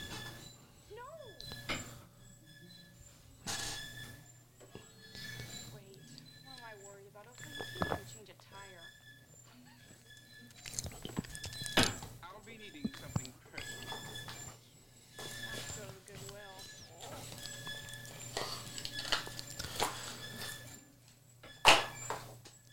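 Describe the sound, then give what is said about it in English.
A clothes dryer squeaks over and over as it runs, with faint, regular squeals and light knocks beneath people talking. “And this dryer is being squeaky as crap.”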